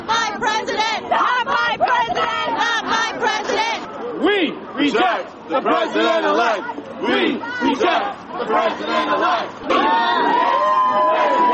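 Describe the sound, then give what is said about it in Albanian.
Protesters chanting 'not my president' while marching in Manhattan, New York, a crowd of about 2,000 heading toward Trump's residence: loud, rhythmic, repeated shouted phrases from many voices, with brief gaps between chants. “Në Manhattan të New Yorkut afro 2000 vet kanë brohoritur, nuk është presidentimi, derisa kanë marshuar kaselia e zotit Trump.”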